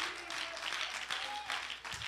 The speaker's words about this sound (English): Why don't you clap your hands to the Lord right now?